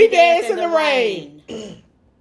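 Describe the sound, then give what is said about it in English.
A woman clears her throat in a long, voiced, rasping rumble, followed by a shorter second push before it falls silent. “I had to clear my throat because it feel like it was something trying to attack. Let me clear my throat. I had to clear for real.”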